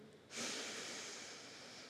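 A single slow breath is drawn in with a soft, airy hiss. It starts suddenly, then holds steady and fades slightly, with no talk around it.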